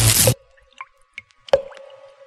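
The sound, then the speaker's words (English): Blood dripping at the opening of the film Black Sunday: a few sparse, hollow drips with short ringing plops, spaced irregularly over near silence after a brief burst of noise at the start. “The sound you hear is dripping blood. This is the start of Black Sunday.”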